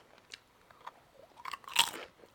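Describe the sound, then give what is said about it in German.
Crunchy food is bitten and chewed: a few faint, crisp crunches build to one louder, sharp crackling bite near the end, with no talk. “Sind die knusprig? Die sind sehr knusprig.”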